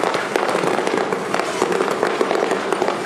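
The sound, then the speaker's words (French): Fireworks explode in a dense, unbroken run of crackling pops and bursts, many sharp snaps packed closely together at a steady, loud level. “Et là où j'allais, il y avait un grand feu d'artifice.”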